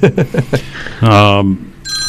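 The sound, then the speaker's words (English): A telephone rings with an incoming call on a call-in line: a brief burst of speech, then one sustained buzzy ring, followed by a short, high tonal chime. “Oh, look at that. Hang on a sec. Someone's calling in”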